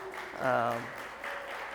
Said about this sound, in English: Give it up for them really quickly.